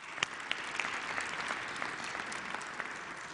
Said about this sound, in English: For those of you in the room, would you please join me in giving a big hand to our online and television audience?